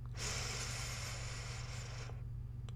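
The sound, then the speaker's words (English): A long, deep breath drawn in during a guided relaxation, a soft, steady airy hiss lasting about two seconds over a faint low hum, then trailing off. “All right, so take a deep breath in.”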